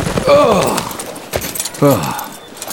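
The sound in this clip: Horses' hooves clip-clop as a posse rides back into town, the hoofbeats running steadily beneath a narrating voice.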